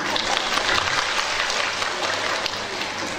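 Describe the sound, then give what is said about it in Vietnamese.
Applause from an audience at a Buddhist dharma talk: dense, steady clapping that fills the whole few seconds at an even, fairly loud level, with no single claps standing out. “Tự khen mình nào, quý vị tự vỗ tay khen mình đi.”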